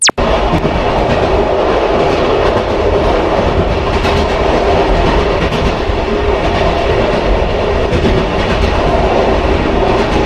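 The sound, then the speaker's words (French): A Micheline railcar train running on rails gives a loud, continuous rumble with a rhythmic clickety-clack of wheels. It follows a sharp click at the very start, with no voices. “Son d'une Micheline, du train évidemment.”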